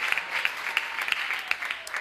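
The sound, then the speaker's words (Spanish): Congregation applauding during a church service, a dense, even patter of many hands clapping steadily for about two seconds, fairly faint. “Denle un aplauso a esos cuatro del Señor.”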